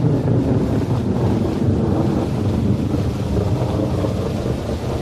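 Heavy rain pours as a steady, dense, loud hiss and roar that holds evenly from start to finish, with no talk over it.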